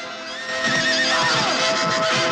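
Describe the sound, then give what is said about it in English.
A ridden horse at the water's edge gives a loud, drawn-out neigh, a quavering high whinny that lasts about two seconds. “As a troubled Pelias rides on horseback along the water's edge”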